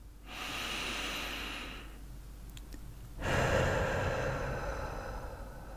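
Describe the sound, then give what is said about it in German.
A deep breath taken during a guided meditation. A long, airy breath lasts nearly two seconds, then after a short pause a louder, rougher breath follows and trails on to the end, with no talk. “Und wieder machst du einen tiefen Atemzug”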